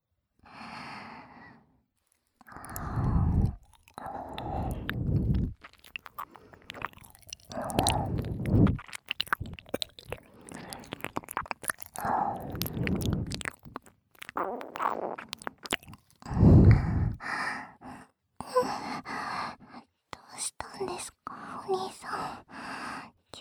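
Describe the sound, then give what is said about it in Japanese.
Wet, close ear-licking mouth sounds come in many short bursts separated by pauses, mixed with soft sighs, breaths and whispering. “お耳舐めるのやりすぎちゃいました”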